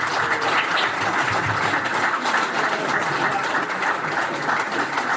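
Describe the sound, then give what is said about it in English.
Audience applause fills the stretch: steady, dense clapping with a few faint voices mixed in, loud and even throughout, no distinct speech. “Can we have a big round of applause, please, for my colleague, Dan Parsons.”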